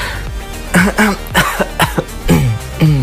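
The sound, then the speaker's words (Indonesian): A voice imitates coughing and throat clearing: a quick, uneven series of short, rough, voiced bursts mixed with a few longer throaty rasps, fairly loud and with no other talk. “Mereka tuh kayak batuk, coughing-coughing gitu. Kayak berdehem gitu.”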